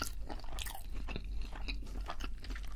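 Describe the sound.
Crunchy, moist chewing of a Burger King burger: many small bites and chews in a steady, even rhythm, fairly soft, with no talking.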